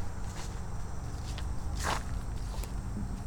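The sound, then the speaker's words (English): Footsteps entering a bird-watching wall blind beside a weedy billabong at a heron reserve: a few soft steps over constant, loud background noise. “All right, so I'm going to step into the wall blind here.”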